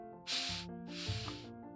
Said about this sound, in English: Two inhales, like, and one long breath.